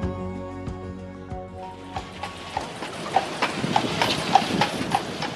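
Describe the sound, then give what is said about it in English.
Hooves of a horse pulling a carriage through New York's Central Park, clip-clopping in a steady, even rhythm that grows clearer and more distinct toward the end. “This is On Point, sound of a carriage ride in New York's Central Park behind us right there.”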